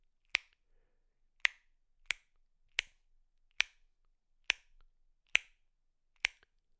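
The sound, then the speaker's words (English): Alveolar tongue clicks of the kind echolocators use, formed further back in the mouth: eight sharp, snappy pops spaced irregularly, alone against silence. “The alveolar click is created more at the back of your mouth, and it sounds something like this.”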